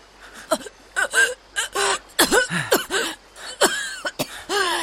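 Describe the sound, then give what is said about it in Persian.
A person gasping for breath in short, strained bursts, mixing sharp intakes of air, rough coughs and whimpering, moaning cries, with brief pauses between the bursts. “خواهش میکنم نفس بکش، خواهش میکنم همین نفس بکش.”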